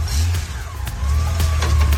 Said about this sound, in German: Und da rauscht sie davon, die Harley. Manche stehen aber auch auf Goldwings. Hier fährt sie weg.